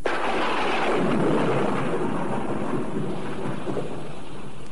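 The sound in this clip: Heavy rain pours in a dense, continuous roar with deep thunder rumbling beneath it, loud and steady throughout with no voices.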